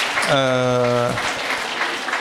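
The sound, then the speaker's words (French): An audience at a panel discussion applauds after a speaker's contribution. The clapping is a steady, moderate wash, and a sustained voiced vowel rises briefly over it near the start. “Oui, on peut applaudir, tout à fait.”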